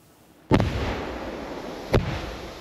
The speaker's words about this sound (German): Zweimal gut 5 Kilo Sprengstoff aus dem Zweiten Weltkrieg gezielt gesprengt im Wald von Wöbelin nahe Ludwigslust. In extra dafür gegrabenen Löchern.